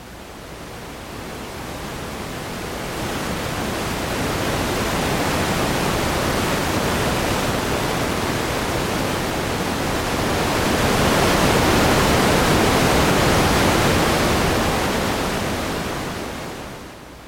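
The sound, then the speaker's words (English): A meditation device gives off a whirling, rushing noise like flowing water. It swells in gently from quiet, holds as a dense steady wash that grows slightly fuller later on, then fades away at the end. “And it's a meditation device that I've been discussing. It is a beautiful sort of whirling sound of noise. I will just sort of slowly bring it in here.”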